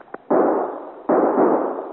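Gunfire from a volley of guns: two loud, roaring blasts, each lasting under a second, with a faint pop before the first and another at the end.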